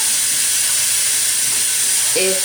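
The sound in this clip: Eggplant sizzles as it browns in a pan, making a loud, steady hiss that runs throughout, with a voice briefly heard at the end.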